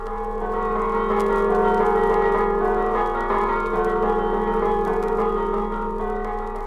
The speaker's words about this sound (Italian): In ogni paese del Friuli un campanile, e su ogni campanile un concerto diverso di sacri bronzi.